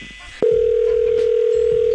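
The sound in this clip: A telephone dial tone after a call is hung up: a sudden onset, then one steady, unbroken mid-pitched tone that holds loud and even to the end.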